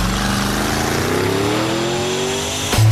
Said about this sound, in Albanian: Dje kuptova që po ngjisja makinën tmerrsisht shpejt, vetëm kur mora një mesazh nga GPS-i.